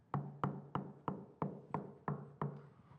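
Knocking at a door: eight even, evenly spaced raps in a steady rhythm, each a sharp hollow thud that decays quickly, quiet and alone with no voices.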